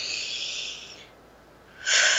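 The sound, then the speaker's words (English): A deep breath taken during a guided relaxation exercise: a long, airy rush of breath lasting about a second, a brief quiet pause, then another strong, breathy burst of air at the end. “So let's take a breath.”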